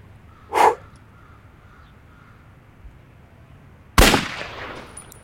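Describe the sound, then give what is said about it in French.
Pistol shots fired at a shooting range target: two sharp, loud cracks a few seconds apart, the second ending in a longer ringing tail, with quiet in between. “vise ta cible et quand tu es prêt, appuie sur la détente”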